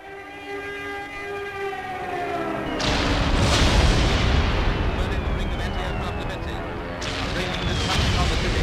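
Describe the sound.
High-explosive shells burst in a street: a sudden heavy blast opens into a loud, sustained rumbling roar, and a second surge of noise breaks in near the end.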